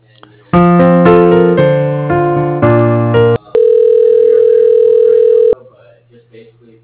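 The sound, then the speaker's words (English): Telephone tones play while a call is transferred to voicemail: a run of loud, stepped electronic tones shifting in pitch, then one long, steady sustained tone that stops abruptly. “Okay, I'll transfer you, okay?”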